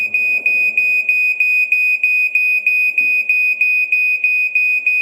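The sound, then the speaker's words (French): A battery-powered ceiling smoke alarm in a home beeps in a rapid, evenly spaced run of piercing high-pitched tones, many identical pulses repeating without pause over faint low background noise. “Alors, je pense à une alarme pour le feu dans les maisons là qui est au plafond. C'est ce qu'on appelle un déclencheur alarme incendie. C'est une bonne réponse”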